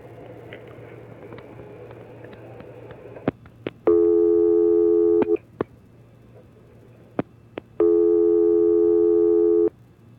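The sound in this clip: A telephone busy signal sounds as two long, steady electronic tone bursts over a low background hum, with a few scattered clicks and handling noises between them.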